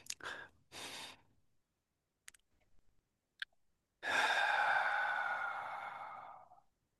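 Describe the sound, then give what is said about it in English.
Deep breathing during a guided breathing exercise: a few short, airy breaths at the start, a near-silent pause, then one long, steady exhale that slowly fades away. “we're going to start by taking a few deeper breaths without forcing.”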